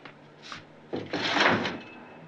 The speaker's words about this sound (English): then goes over to the window and slides it open.